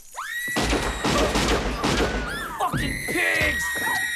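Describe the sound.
Rapid gunfire in a shootout during an FBI raid on a bank-robbing gang: a dense, continuous burst of shots and thuds lasting several seconds, with sharp raised voices cutting in near the start and the end.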